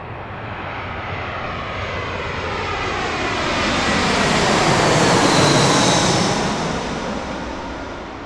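An airplane flies over on the flight path of Midway Airport in Chicago's Cicero neighborhood, a broad engine roar that slowly swells to a peak and then eases off slightly, with no voices.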